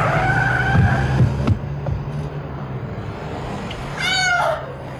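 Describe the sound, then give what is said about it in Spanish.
A car brakes hard with skidding tires, opening with squealing tones over a low engine rumble, then a short, sharp rising screech near the end. “volando por los aires tras ser embestida por un coche que frenó en seco ante ella.”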